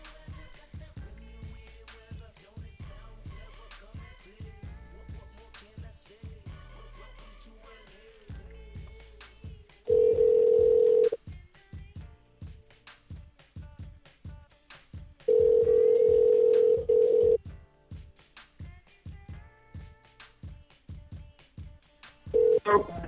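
Telephone call being dialed, with many sharp clicks and taps throughout and two long, loud, steady beeps of the line standing out, the second held longer than the first.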